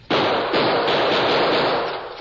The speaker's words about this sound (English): I'm going to try some bullets on that staple.